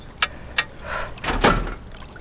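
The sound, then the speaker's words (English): A suit locker door is released and swings open: two sharp mechanical clicks come first, then a rising sliding, hissing rush of the door moving. The whole sequence is moderately quiet and has no voices. “Pull the locker release handle, framed in yellow, downwards.”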